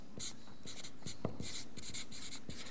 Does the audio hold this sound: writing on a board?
yes